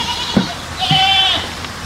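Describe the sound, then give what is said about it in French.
A goat on a farm in the Alps gives a single brief, nasal, wavering bleat, moderately loud over a steady low background hum. “C'est alors que j'ai décidé de partir à l'aventure. J'ai élevé des chèvres au fin fond des Alpes”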